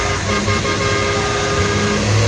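A truck engine revs as the rig is pushed to accelerate: a loud, continuous roar with a sustained tonal hum that holds steady throughout, with no voices.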